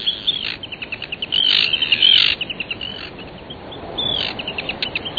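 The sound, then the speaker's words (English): Arctic tern calls: many short, high, raspy chirps in a quick, uneven series over a steady hiss, broken by a few longer, harsher grating cries. “One of the world champions of long-distance migration is the Arctic tern.”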